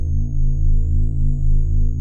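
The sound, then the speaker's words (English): A machine hums steadily and without pause: a deep, even drone with layered low tones, plus a faint thin whine held high above it throughout. “Above her, beneath her, and around her, the machine hummed eternally.”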